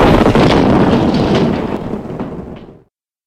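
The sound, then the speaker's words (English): Explosion sound effect: a loud, broad booming rumble that holds steady, then fades over a few seconds before cutting off abruptly. “We three snarks of Orient are smoking on a rubber cigar. It was loaded, it exploded.”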